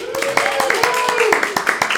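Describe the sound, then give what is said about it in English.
A small audience at a live evening event gives a round of applause, with brisk, evenly spaced claps throughout and a voice speaking over them. “Let's give another round of applause to Randy and Max for hosting us tonight.”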